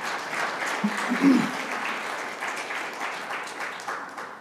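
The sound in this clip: A church audience applauds their pastor with dense, steady clapping that swells briefly near the start and then holds an even level to the end.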